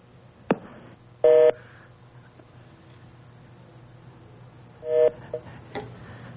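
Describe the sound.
A telephone being dialed, with two short dual-tone keypad beeps several seconds apart, a sharp click before the first and a few faint clicks after the second, over a low steady hum.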